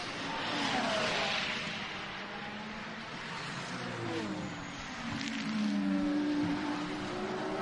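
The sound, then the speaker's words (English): Race car engines roar as cars cross the start-finish line during a battle for position, droning tones shifting in pitch as they pass, steady and fairly loud with no voices. “They've just got across the start-finish line.”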